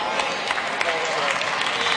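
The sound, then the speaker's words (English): Congregation applauding during a church sermon. A dense patter of claps runs throughout while a voice talks over it. “See how the claps are getting lower and lower and lower.”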